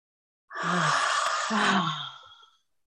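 A deep cleansing breath drawn in, a long airy rush of about two seconds, heard alone without talk.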